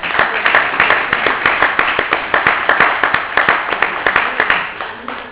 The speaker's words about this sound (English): we need to take pause and applaud you and applaud the yes